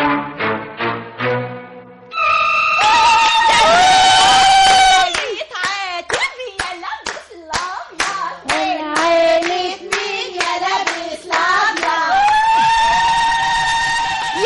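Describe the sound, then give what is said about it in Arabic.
Women ululate in a high, trilling zaghrouta at a henna night celebration. The shrill, wavering cries rise over steady rhythmic hand clapping and mixed voices, and the sound stays loud throughout. “تمام كده، افقعي زغروطة يا عمتي.”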